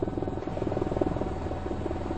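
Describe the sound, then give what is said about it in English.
A helicopter flies over sea ice, tracking killer whales along icy volcanic shores, heard as a faint, rapid, rhythmic fluttering chop that holds steady throughout. “They need a helicopter to get ahead of the whales and to land them on the fragile sea ice.”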